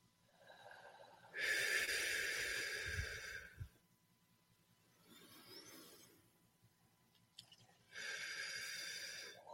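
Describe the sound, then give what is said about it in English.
Deep breathing in and out during a guided breathing exercise: a few long, airy breaths, each a broad rushing hiss that swells and fades, with quiet gaps between and no talk. “So let's take three very deep breaths in that way.”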